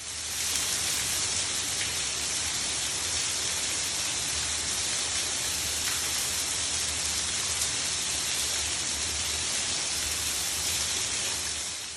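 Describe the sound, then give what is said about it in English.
Water tumbling from the cave roof onto the floor of Peak Cavern, a steady, dense, rain-like hiss that stays even and unbroken throughout, with no voices. “This is the sound of the water tumbling from the cave's roof down onto the surface of the cave.”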